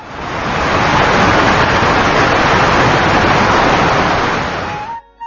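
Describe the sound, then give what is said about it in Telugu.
A roaring waterfall and babbling streams make a loud, steady rush of broad water noise. It swells in over the first second, holds constant, then drops away abruptly at the end. “గలగలపారే సెలయేళ్లు, హోరెత్తించే జలపాతాలు,”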